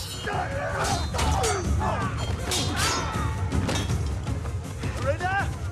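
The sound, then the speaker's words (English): Steel blades clash in a sword fight against three enemies, with many sharp metallic hits and heavy thuds coming in quick, irregular bursts amid shouting voices. “trades steel blows with three enemies. Cutting them all down, he hurries on.”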